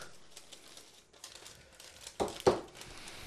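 A paper envelope being opened gives a soft, continuous crinkling rustle, then two sharper, louder tearing rips close together near the end.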